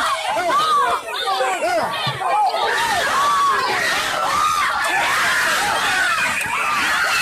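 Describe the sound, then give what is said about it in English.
About a dozen adults brawling hand to hand on a sports sideline at a game, a constant tangle of shouting, screaming and overlapping frantic yells that never lets up. “Here's the sound of about a dozen grown adults on the sideline in hand-to-hand combat.”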